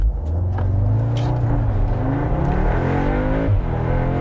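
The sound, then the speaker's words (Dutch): Engine of an Audi S3 Sportback accelerating from a launch-control start: a loud, continuous roar climbs in pitch, then levels and breaks briefly as a gear changes. “Bochtje, even afremmen. Even een beetje launch controlen. Heel heftig doet hij dat ook weer niet. Maar ja, dit is ook pas de S3.”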